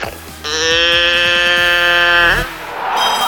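A person imitates a cow's moo with one long, buzzy, strongly harmonic call lasting about two seconds that bends upward in pitch at the end, over a low background hum.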